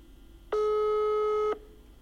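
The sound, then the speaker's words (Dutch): A telephone ringback tone sounds once while a call is placed, a single steady electronic beep lasting about a second that stands out clearly over faint background hiss. “Wel mag Bas later die middag even bellen om te vragen hoe het gaat.”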